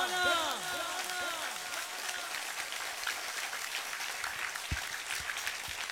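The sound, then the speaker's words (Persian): An audience in a Shia audience claps hands together in a dense, steady wash of applause that holds at an even level throughout. A voice speaks over the clapping at the start. “اگه شیعه مکتب جعفری یه جوری کف بزن پدرشون در بیاد دشمن مولا. بین دو کفه دست صورت اون دو تا حرومزاده رو فرض کن. بزن جانم.”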